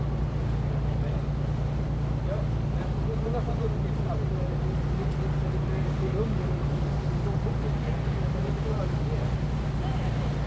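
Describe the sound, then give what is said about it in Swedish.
A sailing ship under way from central Stockholm out to the archipelago gives a steady, unbroken low drone mixed with constant wind and water noise, even in loudness throughout. “Jag har alltså åkt på segelfartyget Sandbin ut från Bäckholmen inne i centrala Stockholm”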